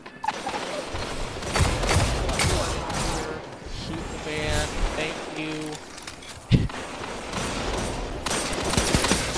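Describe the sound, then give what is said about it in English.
Gunfire in the video game Destiny 2 crackles in many rapid bursts and scattered single shots, with one sharp louder blast, under players talking. “about to shoot that warlock”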